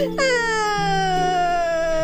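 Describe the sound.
A person crying, heard as a loud, sustained wailing cry with a clear tone that slowly falls in pitch. It begins abruptly after a brief low vocal sound.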